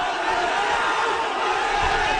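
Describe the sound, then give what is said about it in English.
Crowd noise from thousands of mostly young student protesters in India marching on Parliament as police swing batons, a dense, steady roar of many voices without a break. “Police in India have attacked a crowd of thousands of protesters trying to march on Parliament.”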